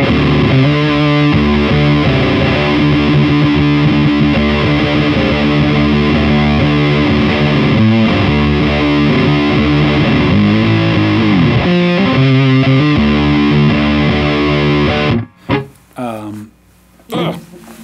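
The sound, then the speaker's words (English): A heavily distorted electric guitar riff, pushed by a boost pedal into a dark, blown-out tone, plays loud and continuous for about fifteen seconds before breaking off into a few brief, scrappy sounds. “So that's like sort of the darkest, most kind of blown out sound it can do.”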